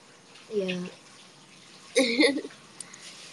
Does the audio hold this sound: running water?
yes